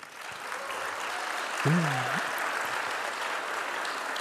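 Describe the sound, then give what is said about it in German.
Audience applause fills a stage event where a competition winner is being announced, a steady, moderately faint wash of clapping that holds evenly throughout. “Und jetzt euer Applaus für Katharina R.”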